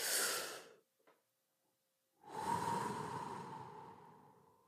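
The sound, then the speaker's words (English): A deep, big breath, heard as breathy rushing air. A short burst of air comes first, then a pause, then a long, loud, steady breath lasting a couple of seconds. There is no talking. “Let's take one deep, big breath together.”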